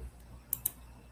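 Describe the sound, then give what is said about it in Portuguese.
Two quick, faint clicks of a computer mouse sound close together, each a sharp high tick, with a quiet background and no talking. “Hoje está travando aqui o negócio. Estou clicando e não está passando.”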